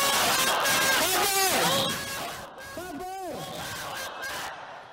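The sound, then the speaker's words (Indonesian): A crowd chants the takbir, "Allahu Akbar", at an Islamic religious gathering. Loud unison shouts come in a few repeated bursts, each rising and falling in pitch. “Yuk kita sambut beliau dengan takbir.”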